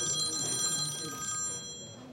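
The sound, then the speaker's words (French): A telephone rings as a journalist calls a doctor; steady, faint ringing tones hold for about two seconds over a low background. “Allô ? Bonjour. Un journaliste appelle le médecin pour avoir son avis”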